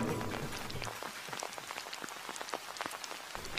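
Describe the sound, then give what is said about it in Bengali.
Heavy rain falling, a dense, steady patter of drops striking a surface, with many small sharp hits blending into a continuous hiss throughout. “ইতিমধ্যে জোরে বৃষ্টি নামিয়েছে”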